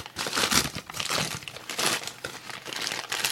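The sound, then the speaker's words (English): Wrapping crinkles and rustles nonstop as a tightly packed gift holding a shot glass is torn open, a dense run of irregular crackling bursts with no pauses. “So you can go ahead and unwrap that. All right, let's see. Damn, they really fucking packed this in there, huh?”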